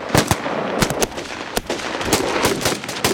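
Gunfire at a firing range: many sharp, loud shots crack in rapid, irregular succession, several overlapping into bursts.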